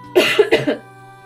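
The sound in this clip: A quick burst of coughing and phlegmy throat clearing, a few sharp rough hacks in close succession that fade within about a second, heard alone.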